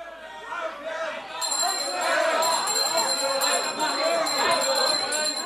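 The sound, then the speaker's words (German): Judges in a courtroom clapping and whistling during a trial speech: a dense, continuous crowd commotion with high, sustained whistle-like tones running over a steady murmur of voices. “Bald klatschen einige Beifall, bald pfeifen andere Richter.”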